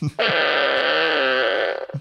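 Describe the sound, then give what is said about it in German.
Fart sound effect from a fart simulator, one long buzzy, tonal blast lasting about one and a half seconds, with brief voices just before and after. “Ich habe 8 verschiedene Fürze haben wir. Ist das geil, oder? Du hast einen Furz. Gott, ist ja gut, ist ja gut. Ein Furz-Simulator.”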